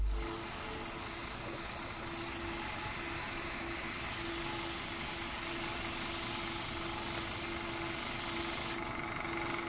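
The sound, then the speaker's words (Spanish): A spray bottle hisses as it soaks the cover of a manual, a steady, broad hiss that runs almost without a break for the whole stretch, changing slightly near the end. “con movimientos precisos rocía la tapa del manual con un pulverizador”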